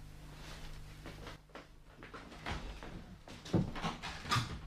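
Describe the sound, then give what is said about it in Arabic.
In a radio drama, a door is shut and locked behind someone. A few dull knocks and clunks sound faintly over a low background. “استني شوية، اهو قفل الباب وراه.”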